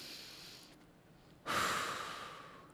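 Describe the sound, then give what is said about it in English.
One deep breath: a soft, drawn-out inhale, then a louder, sighing exhale that starts abruptly and slowly fades away. The breathing is heard alone, with no words. “I want you to take a deep breath. Let's do that together right now.”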